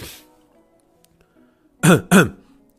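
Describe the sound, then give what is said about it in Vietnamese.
Two short, dry coughs from someone covering their mouth, close together and fairly loud, breaking a near-silent stretch with nothing else heard. “Ngạo Thiết đưa tay lên che miệng ho khan hỏi”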